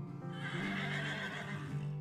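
A horse neighs in one sustained, loud whinny that lasts about two seconds, with no voices.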